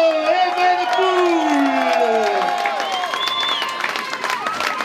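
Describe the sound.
A crowd at a cycling race cheers and applauds a rider, with a loud voice riding over the start and a busy patter of clapping and cheering continuing throughout.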